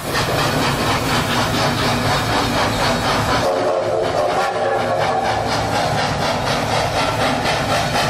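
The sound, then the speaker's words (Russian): Express courier train sound effect: a steady, loud rushing rumble with a rhythmic clatter running throughout and a hissing, steam-like edge, with no voices. “Вот слушайтесь, пожалуйста. Курьерский поезд.”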